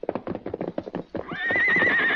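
A horse stands near a colt, first with a run of quick hoof clops. Then comes a long, loud, high whinny that climbs in pitch and holds, wavering, to the end.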